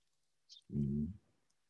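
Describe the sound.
Mouse click starting a screen share in an online class: a single soft, quiet click, followed right after by a brief low voiced hum.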